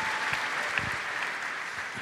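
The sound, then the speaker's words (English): A round of applause: a dense, even patter of many hands clapping, steady and fairly loud throughout the two seconds. “deserves a round of applause.”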